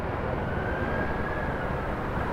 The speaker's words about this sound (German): Hubschrauber kreisen ständig über der Stadt, Tag und Nacht.